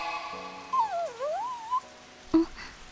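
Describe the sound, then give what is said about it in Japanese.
A dog whimpers while stuck in the middle of railway tracks, giving one drawn-out whine that dips in pitch and then climbs back up. A short dull knock follows a moment later. “今の声って、 線路の真ん中にワンちゃんが動けないの？”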